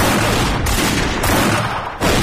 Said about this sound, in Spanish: Disparó su escopeta Remington del 16 y una pistola de 2 caños que llevaba encima, sin hacer blanco.